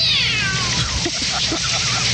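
A cat meowing: one drawn-out meow that falls in pitch, followed by a few shorter, softer mews, clear and without talk.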